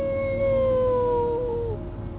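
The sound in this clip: A voice imitates a wolf howl: one long, sustained tonal cry that holds steady and then dips slightly in pitch before it trails off, over a low background hum.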